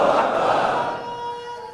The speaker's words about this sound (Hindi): फिर से तीनों नारे लगाओ, तुम्हारी आवाज दब गई।